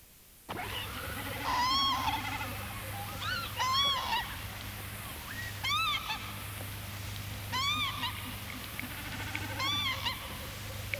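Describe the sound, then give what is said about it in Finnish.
Common snipe calls: five repeated nasal, arched calls spaced about two seconds apart, fairly loud over a steady low hum. “Taivaan vuohi.”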